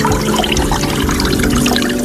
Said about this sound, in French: on vient d'allumer l'arceau de pluie. Donc en fait, c'est un arceau avec de l'eau qui coule assez délicatement.